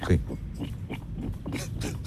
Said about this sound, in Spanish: No, este cerdo está muy afónico. No, otra vez, pegue bien la boca al micrófono. Es un poco introspectivo el cerdo. A ver, vuelvo.